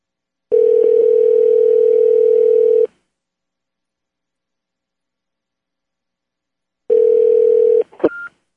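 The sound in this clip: Telephone dial tone for a call: a steady mid-pitched tone sounds for about two seconds and stops, returns briefly after a silence, then gives way to a few quick dialing tones and clicks.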